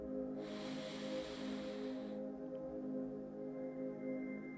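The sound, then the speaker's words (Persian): One deep inhalation during a guided meditation in Dari, a soft airy hiss lasting about two seconds that stops abruptly, over a faint steady hum. “یک نفس دیگه میکشیم دم”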